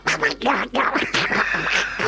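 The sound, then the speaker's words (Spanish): A duck quacks in a rapid run of raspy, nasal quacks that follow one another almost without pause, fairly loud and steady throughout. “Estoy acá con el pato. ¡Pato, vení para acá!”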